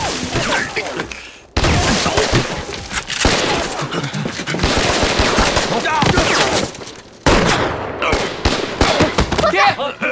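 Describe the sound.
Heavy gunfire in a wartime battle scene against Japanese forces, with rapid, overlapping bursts of shots that stay loud and dense for about ten seconds, broken by brief gaps, and voices heard in places.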